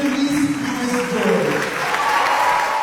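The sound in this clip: Audience applause at a citizens' meeting welcoming the Democratic mayoral nominee as she takes the microphone: a dense, steady wash of clapping that holds evenly throughout, with voices mixed in.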